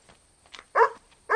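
A dog barks near a kangaroo carcass, giving two loud, sharp barks after a fainter short yelp, with brief quiet gaps between them.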